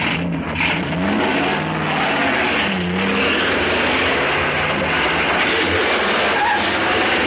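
Car engines roar through a chase with a police car in pursuit, a loud, unbroken rumble that runs throughout with a rattling, clattering edge layered over it.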